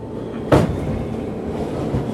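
A subway train rumbles along with a steady low rattling drone. A single sharp clunk breaks in early and then the ride continues evenly.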